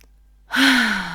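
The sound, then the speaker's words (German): A deep breath out, a single long sigh-like exhale with a faint voiced tone that drifts down in pitch, following a short silence, with no talking. “einmal tief ein- und ausgeatmet”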